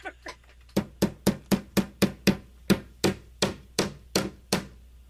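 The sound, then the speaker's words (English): A hammer strikes in a quick, steady series of sharp knocks, more than a dozen in a row after a couple of lighter taps at the start. The strikes slow slightly toward the end. “That's a hammer.”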